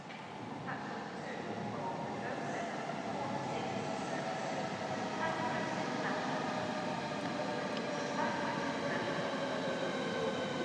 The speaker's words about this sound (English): I'm now about to capture the sound of high speed one train pulling in.